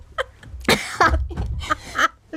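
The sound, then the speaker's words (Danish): A few short, harsh coughs from one person, with throaty voiced sounds between the bursts. “det lyder som om, at jeg kommer til at hoste”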